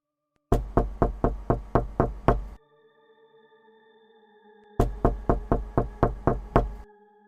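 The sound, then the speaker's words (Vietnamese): Knocking on a house door: two rapid runs of sharp, evenly spaced raps separated by a pause, with a faint lingering tonal ring after each run. “Tiếng gõ cửa phát ra làm cho An giật mình.”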